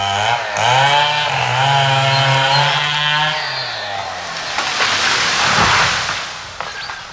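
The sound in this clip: A petrol chainsaw clearing trees whose roots grow over a burial site: a loud, continuous buzzing engine whine that holds steady, then shifts in pitch and grows rougher and noisier as it bites into the wood.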